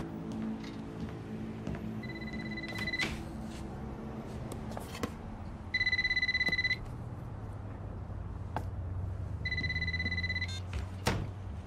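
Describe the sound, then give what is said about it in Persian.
Ringback tone on an outgoing telephone call: three separate rings, each a steady, bright electronic tone about a second long, with quiet pauses between them over faint low background noise. “فکر کنم وقتشه به کوایت ری زنگ بزنیم.”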